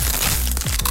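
Crunching of crispy tortilla chips being bitten and chewed, a quick run of sharp, dry crackles and snaps, fairly loud and close together with no talk over them.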